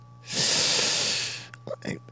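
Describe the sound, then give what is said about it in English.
A deliberate breath is pushed through closed teeth, with the tongue raised, into a microphone. A single loud, bright hissing rush lasts just over a second, followed by a few brief voiced sounds. “And they would actually do the breath on purpose. They would like close their teeth, put that tongue up there, because if you just do a breath, it's right. But if you close your mouth, it's so much cooler.”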